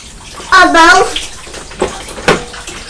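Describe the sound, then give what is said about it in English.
Tap water runs steadily while hands are washed, and a child's voice briefly sounds over the flow. “Mummy's just going to wash her hands”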